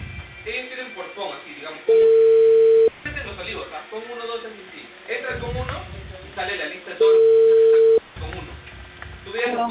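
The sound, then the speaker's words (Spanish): Telephone ringing tone while a call is placed: two level, steady beeps of about a second each, several seconds apart, with people talking continuously underneath and between them. “Llamo a la Meda, llamo a la Meda.”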